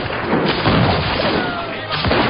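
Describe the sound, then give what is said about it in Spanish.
Arquebus gunfire sound effect in a dramatized naval battle, with Spanish arquebusiers firing on a Turkish admiral's ship: a loud, dense, continuous roar of blasts and crashes with no gaps. “Los arcabuceros españoles apuntaron bien y comenzaron a disparar.”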